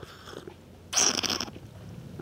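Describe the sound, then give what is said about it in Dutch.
A single slurp of hot, spicy chai tea: a brief, hissing intake of air and liquid, fairly quiet, standing out from soft background noise. “Moet je dan ook slurpen zoals bij wijn? Dat mag, zeker. Er komt meer zuurstof bij en dan smaak je meer.”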